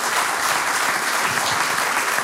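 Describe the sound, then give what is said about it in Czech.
A studio audience at a quiz show applauds with thick, even clapping that stays loud and unbroken for the whole stretch. “No tak my vám tleskáme, Teresko, 2-0.”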